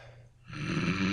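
A man snoring during a wrestling match: one rough, breathy snore that starts faint, then swells loudly about halfway through and holds to the end.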